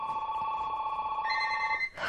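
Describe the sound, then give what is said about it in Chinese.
Telephone ringing with a continuous electronic trill that holds steady and gains an extra higher layer partway through, then breaks off into a short noisy burst. “电话啊！ 我知啊。”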